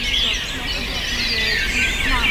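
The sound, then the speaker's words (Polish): Birdsong, identified as a European robin, heard at dawn on a summer walk. A bright, high-pitched warbling song with quick trills continues steadily over a low background rumble. “O, tutaj rudzik. Ostatni odcinek, idziemy wśród śpiewu ptaków.”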